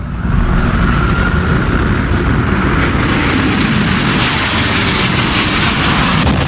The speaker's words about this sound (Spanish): Así sonaba el impacto de ese avión contra la segunda torre.